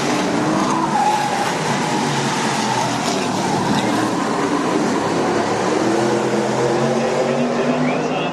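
A race car laps a track on General tires that are up to temperature after four laps, a continuous loud engine roar with tire noise that holds steady throughout.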